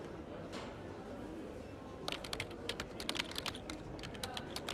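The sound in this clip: Rapid keyboard typing by an operator logging a customer's feedback after a payment call: many quick, crisp keystroke clicks begin about halfway through and continue to the end, over a steady background hiss.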